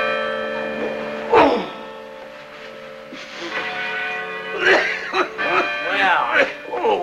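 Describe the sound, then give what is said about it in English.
Village church tower bells are rung by pulling a heavy rope, sending out overlapping bell strikes with long, shimmering, ringing tones that build and layer over one another. “in the village church, Ballard and Huggins ring the tower bells. Huggins strains against a heavy rope.”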